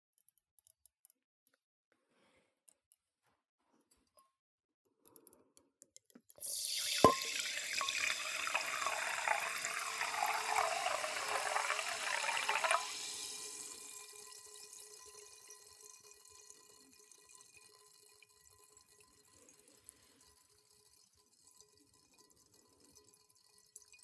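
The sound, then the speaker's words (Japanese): Liquid pours into a good wine glass in a steady, splashing stream of about six seconds. It starts with a sharp clink, then stops abruptly and leaves a faint, fading ring, with no talk. “ワイングラス、ワイングラス、パパの いいやつ借りてきちゃった。じゃあ注ぐよ。”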